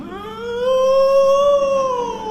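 A wolf howling in one long, clear tonal note with rich harmonics. The pitch rises gently, holds steady, then eases down toward the end, heard alone without talk.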